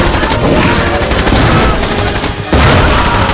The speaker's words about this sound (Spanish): O'Connell y Ardeth llegan y comienzan a disparar.